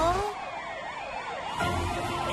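An arriving car rescue team's emergency vehicle siren sounds a quick, repeated up-and-down wail at a fairly even loudness.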